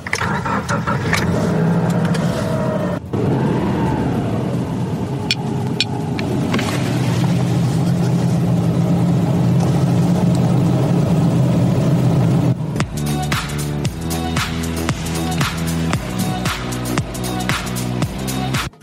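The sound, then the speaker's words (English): A CNG-powered car on the move gives a steady low rumble of engine and road noise that runs throughout, with a change in texture toward the end. “Well, that was me cruising in a CNG-powered vehicle. Take it from me, a ride in one of these vehicles is not different from the petrol-powered vehicle.”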